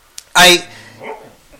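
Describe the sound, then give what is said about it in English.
A sleeping dog barks once, loud and sharp, then gives a softer low grumble shortly after, as if dreaming. “my dog is sleeping per usual. And then she decided to growl and bark in her sleeping.”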